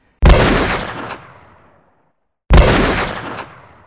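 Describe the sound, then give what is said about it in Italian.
Two loud pistol gunshots in a radio drama, each a sharp crack with a long fading tail, separated by a short silent gap, with no talk. “E ho sparato.”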